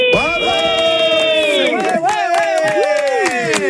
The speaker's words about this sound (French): je veux que tu cries le plus fort possible.